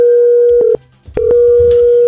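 An outgoing telephone call rings out as a loud, steady mid-pitched electronic tone that cuts off once briefly and then resumes, heard alone.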